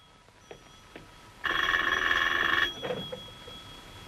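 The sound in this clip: A telephone rings once with a loud, steady electronic trill lasting just over a second, set against a quiet background with a few faint knocks before and after.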